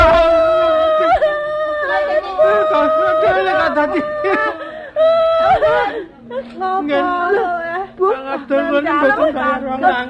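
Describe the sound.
A man sobs and wails in a Javanese-language radio drama. His quavering, pitched cries break with gasps and mix with spoken lines of dialogue.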